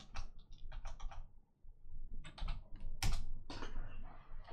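Typing on a computer keyboard to enter a name into a search bar: rapid clusters of light clicking keystrokes broken by brief pauses, with no talk.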